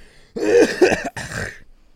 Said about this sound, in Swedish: Som en riktig gammal farmor hostar jag.